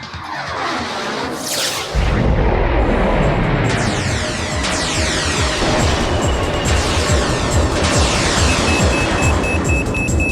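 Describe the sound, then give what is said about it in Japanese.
A sci-fi mega particle beam cannon fires from a warship. A sweeping whoosh bursts at about two seconds into a loud, sustained roaring blast laced with warbling, sweeping tones that last to the end, with no voices. “艦長、発射準備完了しました。 うむ、メガ粒子田代砲発射。”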